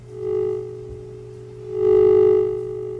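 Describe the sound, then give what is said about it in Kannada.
A steady telephone line tone sounds from a failed connection during a radio phone-in call, a plain low hum that swells louder twice. “ದೂರವಾಣಿ ಸಂಪರ್ಕದಲ್ಲಿ ವ್ಯತ್ಯಾಸ ಆಗ್ತಾ ಇದೆ. ದೂರವಾಣಿ ಸಂಪರ್ಕ ಆಗ್ತಾ ಇಲ್ಲ.”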